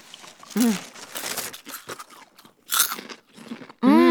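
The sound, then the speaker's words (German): Popcorn being eaten, with crisp crunching and chewing in a few irregular bursts. Brief voiced sounds appear near the start and at the end. “So, da bin ich wieder. Hier ist euer Popcorn.”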